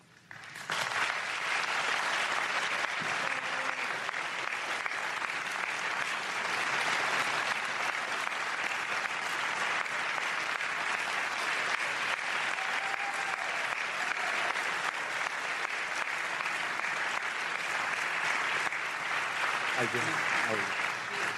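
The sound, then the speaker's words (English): Sustained applause from a presidential debate audience as the candidates, Joe Biden and Donald Trump, are welcomed to the stage. Dense, steady clapping fills the whole stretch at an even level. “The audience here in the hall has promised to remain silent. No cheers, boos, or other interruptions, except right now, as we welcome to the stage former Vice President Joe Biden and President Donald J.”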